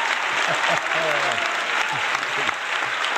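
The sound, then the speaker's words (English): An audience applauds to welcome a speaker, with dense, steady clapping throughout and voices rising over it. “Ladies and gentlemen, please put your hands together and help me welcome Mr. Jack Canfield.”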